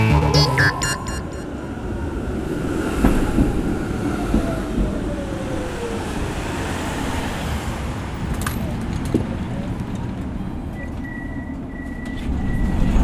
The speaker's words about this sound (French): Ça, c'est le son du tram.